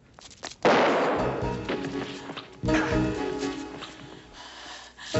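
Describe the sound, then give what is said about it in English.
A gunshot cracks out sharply, two loud reports a couple of seconds apart, each trailing off into a long, decaying rumble. “Unfortunately, he's still going to shoot people. And Barbara lunges at him and gets shot.”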